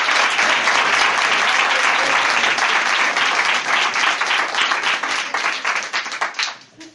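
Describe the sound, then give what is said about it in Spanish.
Audience applause welcoming a guest at a talk: a dense, steady wash of many hands clapping that holds for several seconds, then thins into scattered claps and fades out at the end. “Le recibimos con un aplauso.”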